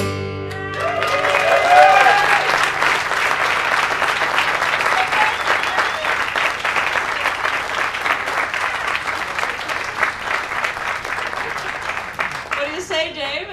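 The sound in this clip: Enthusiastic audience applause after a song, rising as the last musical notes fade and continuing strongly for over ten seconds, with shouts and cheering voices mixed in.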